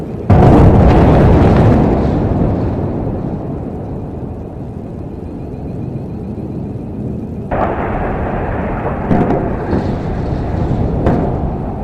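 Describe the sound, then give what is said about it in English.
Massive blasts from Israeli airstrikes in Gaza roll out as a loud, sustained rumbling boom, followed later by a few sharper, heavier explosions. “Sound of massive blasts in Gaza in the early hours of Monday as Israel continued its airstrikes.”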